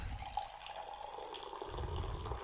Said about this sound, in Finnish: teetä. Mä tässä samalla kaadan. Mä oon harjoitellut tämmöstä. Korkeimmat, mitä käsi yltää.